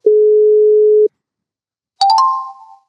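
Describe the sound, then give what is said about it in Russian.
Telephone line tones while a call is placed: one steady, even tone lasting about a second, a silent gap, then a brighter, sharper tone with a few quick pulses at its start that fades away. “Пробуем дозвониться.”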